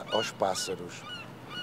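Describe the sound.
Seagulls call at a fishing harbour where boats land octopus catches. Several harsh, honking cries come in quick succession at moderate volume, then trail off into quieter background.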